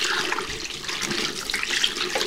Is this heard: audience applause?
no